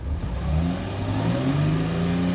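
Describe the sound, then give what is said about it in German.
A car engine pulls away through snowy city streets, its loud, continuous drone climbing steadily in pitch as the vehicle accelerates. “Baumeister setzte sich in den Wagen. Und den dann in Bewegung.”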